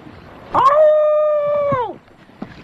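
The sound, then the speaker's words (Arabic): A wolf howls in one long sustained call, rising briefly at the start, holding a steady, clear tone for over a second, then dropping off at the end, loud against a faint background. “ايه ده؟ ده صوت ديب. هو في ديب في البحر؟”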